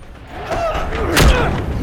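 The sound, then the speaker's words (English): Heavy body drop in a fight scene from the film Riddick, as a man falls to the ground after his bonds break: a single deep thud lands midway over swelling tonal background sound. “The force breaks his bonds and he drops to the ground.”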